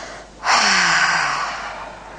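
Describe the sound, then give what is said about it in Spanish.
A deep breath through the mouth: one long, airy rush that starts suddenly and then fades slowly, heard alone with no talk. “Tomamos una inhalación profunda suavemente y exhalamos por la boca.”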